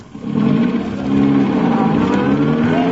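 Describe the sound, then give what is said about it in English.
A van drives off: its engine revs into a low, steady droning hum that swells louder after about a second and then holds, with no talk over it. “Jones is driving off with a live grenade in the van.”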